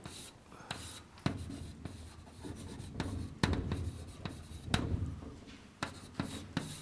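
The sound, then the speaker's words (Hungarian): Irregular scratchy strokes of a diagram being drawn during a physics lecture on electric fields, a long run of short rubbing and tapping marks of varying loudness with no talk over them. “ugye ide rajzolom”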